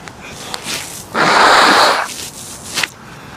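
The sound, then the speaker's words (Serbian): A sniff or nose-blowing snort outdoors in cold, windy weather: one loud, breathy, noisy rush of air lasting under a second, with a fainter short puff just after. “Čekaj, moram da bacim šmrk. Postalo je kritično ovde, hladno i vetar duva neki.”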